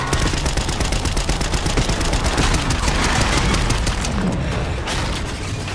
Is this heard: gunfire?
yes